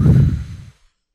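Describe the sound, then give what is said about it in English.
A group of people breathe out together during a prayer gathering, one loud, breathy exhale that fades away in under a second. “And breathe out.”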